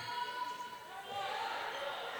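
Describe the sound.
Basketball dribbled on the court during a women's game between the Lady Dawgs and the Longhorns at George Ranch: faint, scattered thuds of the ball against a steady wash of crowd and gym noise, with a few high shoe squeaks.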